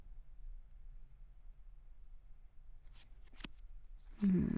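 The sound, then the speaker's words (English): Playing cards being dealt: a few soft, faint flicks and snaps of cards, then a louder rustling shuffle at the end, against near-silence. “Alright, deal the cards, come on.”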